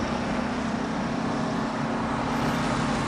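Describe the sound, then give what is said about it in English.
Car rolling through a small town, heard as a steady, even road and engine rumble that holds constant throughout, with no voices. “Later, the car rolls through the intersection of a small town. Lucas parks at a curb.”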